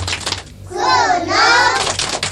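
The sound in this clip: Children clapping the 'tepuk cinta alam' rhythm: quick bursts of claps open and close a loud group chant of young voices.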